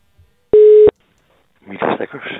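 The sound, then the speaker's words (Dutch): A single steady electronic tone sounds on a telephone line as a call rings through, a short, loud, flat beep that stops abruptly before a voice begins talking. “En daarvoor heb ik gebeld met oerbioloog Midas Dekkers.”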